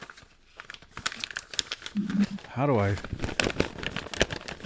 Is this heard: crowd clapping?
no

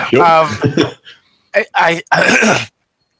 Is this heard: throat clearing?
yes

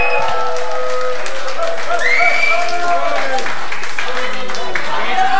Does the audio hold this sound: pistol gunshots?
no

